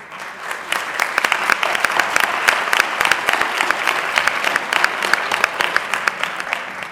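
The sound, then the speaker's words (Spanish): Audience applause at an inaugural ceremony, a loud, dense burst of many hands clapping that starts quickly and stays steady and sustained for several seconds. “Pero bueno, el aplauso siempre es algo grato y hermoso.”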